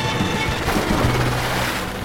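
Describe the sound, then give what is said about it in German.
A stranded ship is hauled off rocks into the sea as rescue vehicles give gas, in a children's audio drama. A dense, steady roar of churning water and engine noise continues unbroken and fairly loud throughout. “Und dieses Mal schafften sie es, die Flunder langsam ins Wasser zu ziehen.”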